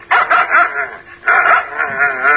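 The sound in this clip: A dog barks loudly in two quick bursts of yipping, tonal barks separated by a brief pause, with no other voices.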